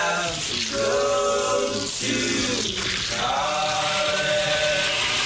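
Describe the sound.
A blender whirs loudly and steadily, mixing ice, apple juice and chopped mango into a continuous churning roar with slight dips and surges, and no voices.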